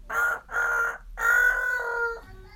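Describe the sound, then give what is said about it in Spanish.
A child imitates a rooster crowing, giving three drawn-out, high, strained calls in a row, the last one the longest, with nothing else heard. “Torcuato se acercó para ver dónde había un gallo”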